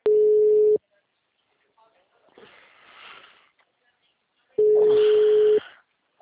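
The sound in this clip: Telephone ringback tone while a call connects: two steady, low single-pitch beeps separated by a long pause, with soft breathy rustling in the gap between them.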